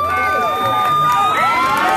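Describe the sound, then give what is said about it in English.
Wedding audience cheering and calling out for kisses after a brief group ceremony at a shelter in Tijuana: a loud crowd with high shouts and whoops rising and falling. “The audience calls out for kisses.”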